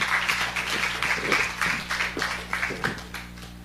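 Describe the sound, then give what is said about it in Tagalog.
A church audience applauding, with distinct, fairly regular claps over a low steady hum, easing slightly toward the end. “Minsan pa po, palakpakan natin ng Diyos.”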